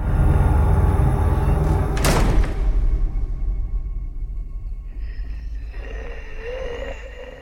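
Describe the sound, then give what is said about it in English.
A barred metal gate in front of an attic door is unlocked with a key and swung open, then the door itself is unlocked. One sharp clack cuts through a low, steady rumble. “He inserts a key into a barred gate in front of the attic door and unlocks it. He spins it open, then unlocks the door itself and walks in.”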